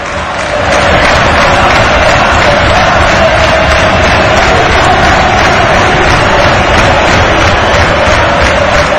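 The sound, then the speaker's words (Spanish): A football crowd at Riazor stadium roars during a tense late stage of a match, with loud, sustained cheering and bellowing from thousands of fans that surges without pause throughout. “Al público de Riazor da igual, escuchad, esto es ahora mismo Riazor.”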